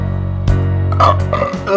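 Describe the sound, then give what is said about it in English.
A person belches loudly in a long, low, rumbling burp that gurgles and breaks up toward the end. “Are you still belching up that stuff”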